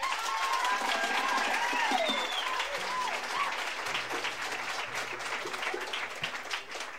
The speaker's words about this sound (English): Would you all put your hands together and welcome Mr. Glenn Duncan.